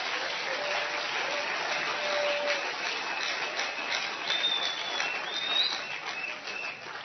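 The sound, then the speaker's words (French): A church audience applauds during a service. The clapping is a dense, steady wash of sound that holds at an even level for several seconds without any clear break. “Est-ce que quelqu'un peut acclamer Jésus ce matin?”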